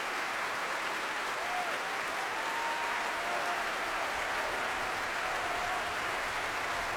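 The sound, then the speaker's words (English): An ovation from the Royal Albert Hall audience after a Wagner performance by the Staatskapelle Berlin, with sustained, thick applause forming a steady wash of clapping at an even level. “but he turns to face this ovation from the Royal Albert Hall audience. The players of the Staatskapelle Berlin on their feet.”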